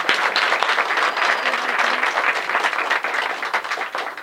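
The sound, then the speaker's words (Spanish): Applause breaks out from an audience, dense and steady clapping that holds at an even level for about four seconds before easing slightly at the end. “¡Un aplauso para la voz!”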